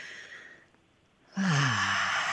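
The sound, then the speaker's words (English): A deep breath taken during a guided centering exercise: a soft, airy inhale, then a loud, long sighing exhale with a voiced tone that drops in pitch. “So let's just take a deep breath together”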